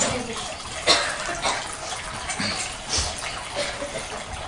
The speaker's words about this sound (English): During the class, shall we turn this off, this waterfall?